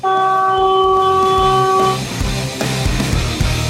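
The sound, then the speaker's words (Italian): A loud truck horn blares as a single sustained, harmonically rich blast lasting about two seconds. It then gives way to a low, rumbling wash of road noise. “Oh senti, il camion. Come fa, trombe, come fa?”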